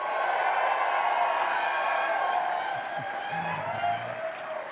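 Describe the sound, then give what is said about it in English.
Crowd applause with cheers from the GCF Valley members of a 20-year anniversary gathering. It is a steady, dense roar of clapping throughout that tapers a little in the last couple of seconds. “GCF Valley, please make some noise.”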